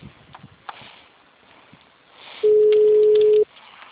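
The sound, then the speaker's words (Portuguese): Ringback tone on a phone call that nobody answers: one steady, mid-pitched tone lasting about a second, loud over faint background noise on the line. “Mas só tá chamando, eu acho que ele não tá. Não, mas ele não tá. Ó, só tá chamando.”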